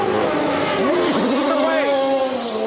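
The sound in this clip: A race car accelerates out of a pit stop after taking tires and fuel, its loud, sustained engine whine wavering up and down in pitch as it gathers speed.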